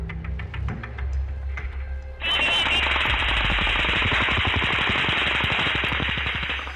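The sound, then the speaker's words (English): Rapid gunfire is shot from a hotel down onto an outdoor concert venue. After a few quieter seconds, a loud, continuous stream of fast, evenly spaced shots breaks out and runs without pause to the end. “shots started to fire from the Mandalay Bay onto the venue”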